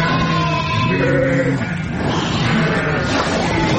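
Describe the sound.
Lambs bleat while receiving eye drops during veterinary treatment: wavering, voice-like bleats over a dense, steady background.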